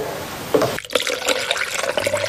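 Rice batter, finely ground rice and water, drips steadily while being prepared. Its soft, continuous watery patter and trickle hold at an even, fairly quiet level.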